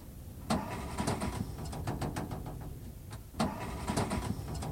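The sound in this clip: A car engine cranks over and over without catching. The car has broken down and will not move. A steady, rough whirring carries a rapid clicking texture and two sharper surges, with no voices.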